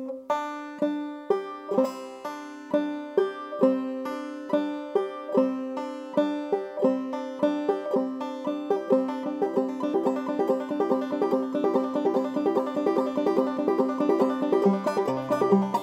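Clawhammer banjo played in round peak style, a repeating roll of bright plucked notes with pull-offs and downward strikes, in a steady rhythm that grows quicker and denser toward the end.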